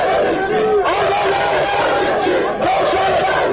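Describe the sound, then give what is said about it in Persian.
An Ansar-e Hezbollah protest crowd outside the German embassy on Ferdowsi Street in Tehran shouts and chants, a loud, dense mass of voices that runs continuously with a few swells. “و در همین حال انصار حزب الله در مقابل سفارت آلمان در خیابان فردوسی دست به تظاهرات زدند.”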